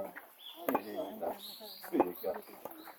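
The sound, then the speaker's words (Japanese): Faint bird calls and high chirps come from overhead in a mountain forest on Amami, thin and scattered beneath people talking quietly nearby. “いっぱい鳥鳴いてるもん、上で。 鳥が鳴いてますね。”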